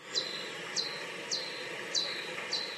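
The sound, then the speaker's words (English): Five evenly spaced Pipistrellus bat calls, slowed down ten times, play as short, high, downward-sweeping chirps that sound bird-like over a faint hiss. “a different type of bat, a Pipistrellus, has calls which sound like this.”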